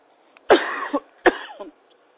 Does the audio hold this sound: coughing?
yes